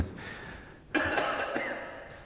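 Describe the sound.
A cough: one sudden, harsh, breathy burst that tails off over about a second, following a quieter stretch.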